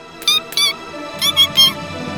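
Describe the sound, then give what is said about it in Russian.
A mouse squeaks in five short, high, thin bursts, two spaced apart and then three in quicker succession, over a faint low background. “По столу побежала мышка и запищала.”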